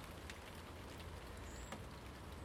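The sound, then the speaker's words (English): Steady rain falling in wet weather, a dense continuous hiss of drops with no clear individual impacts and no voices. “Rain, rain, go away. Just for a wee bit, please.”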